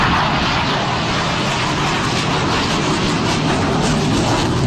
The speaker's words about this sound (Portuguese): Esse é o som de um dos caças nesse evento aéreo em São Paulo, na zona norte, ali na Praça Campo de Bagatelle.